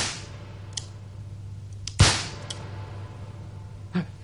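A single sharp pistol shot fired in a duel: a short, bright crack over a low steady hum, with a few fainter clicks before and after it.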